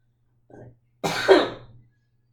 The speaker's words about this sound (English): I still have like a little bit of phlegm back there, so it always tries to, I'm still spitting stuff up.